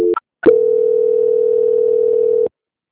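A telephone call-transfer tone plays on the line. After a couple of short beeps, a steady single-pitch tone holds loud and even for about two seconds, then stops abruptly into silence.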